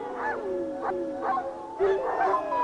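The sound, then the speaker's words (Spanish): Wild wolves howling as a pack: several overlapping, wavering tonal howls rise and fall in pitch, sustained and fairly steady in loudness throughout. “El granjero debe reproducir el aullido cada vez que escuche el aullido de una manada de lobos salvajes a la distancia.”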